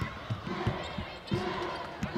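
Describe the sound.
A basketball is dribbled on the court during a women's college game between MTSU and GCU. Dull thumps repeat in a steady rhythm under crowd murmur and a talking voice.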